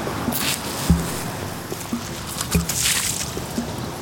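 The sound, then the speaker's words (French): A piece of dried wood from a tree trunk on a beach is stirred through water by hand, making soft sloshing with several dull low knocks and splashes at irregular intervals. “Et elle joue avec l'arbre, le morceau de bois qu'elle a dans les mains pour bouger l'eau.”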